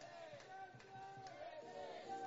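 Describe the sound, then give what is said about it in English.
Baseball fans at a Grizzlies game yell to rouse the crowd, their faint, drawn-out shouts rising and falling over a quiet ballpark murmur. “As the fans here are trying to get the crowd going, yelling some Grizzlies.”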